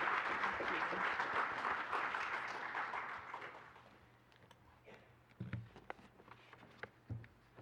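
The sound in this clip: A church audience welcomes a guest speaker with warm applause. The loud clapping gradually thins and fades over about four seconds, leaving a near-quiet room with a few soft knocks.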